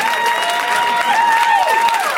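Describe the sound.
An audience cheers and claps in excited reaction to the mention of Daryl Hannah. A short burst of lively applause mixes with a sustained, high whoop-like tone.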